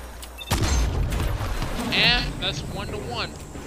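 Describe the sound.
Fusion rifle fire during a Destiny Crucible match: a heavy, booming burst comes first, followed by warbling, high electronic whines, while players talk over the game sounds.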